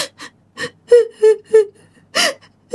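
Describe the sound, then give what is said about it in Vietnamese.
Quiet, whimpering sobs of a crying woman: a series of short gasping breaths and voiced catches at an uneven rhythm, with nothing else heard. “Lúc mà dì Năm đang lim dim, dì Năm mới nghe tiếng khóc thút thít.”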